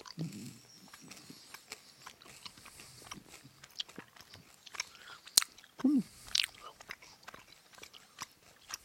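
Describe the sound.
Chewing and biting on a pink candy: crunchy bites and wet chewing clicks in an uneven rhythm, with a few brief voice sounds mixed in.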